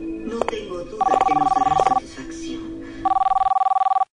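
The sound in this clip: A telephone rings twice. Each ring is a rapid, trilling electronic burst about a second long, with a pause between them, and people talk at the start.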